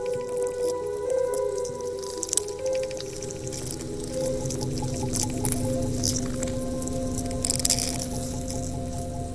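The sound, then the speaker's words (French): A purple sea urchin makes faint crackles, clicks and soft squishy snaps underwater. The scattered crackling runs over a continuous low hum and steady tonal drone. “Pas si bête, une chronique sur le monde sonore animal. Aujourd'hui, l'oursin violet.”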